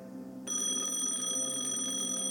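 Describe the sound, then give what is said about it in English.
An office telephone rings with a steady, bright electronic tone that starts abruptly after a soft hum and holds at an even level. “The office phone rang. I answered.”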